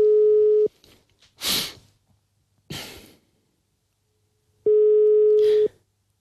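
Telephone call ringing tone: two long, steady, mid-pitched tones at the start and end, separated by a pause holding two breathy noise bursts.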